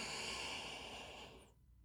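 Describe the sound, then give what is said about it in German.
A deep breath taken during a guided breathing exercise: one long, soft, airy hiss that holds steady and then fades out. “Und dann lass uns jetzt gemeinsam einen tiefen Atemzug nehmen. Und stell dir mit der Einatmung vor, wie du unglaublich viel Energie und Kraft einatmest.”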